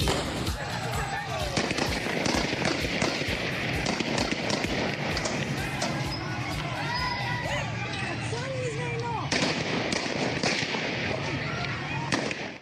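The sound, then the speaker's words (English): A crowd at a women's rights protest demonstration in Afghanistan, with loud voices and movement broken by many sharp gunfire cracks that keep going throughout. “That was the sound of a peaceful demonstration held a couple of weeks ago in Afghanistan”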